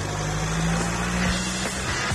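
A classic car engine runs at a historic vehicle show on the Fuenlabrada fairground, a steady low rumbling idle that continues throughout.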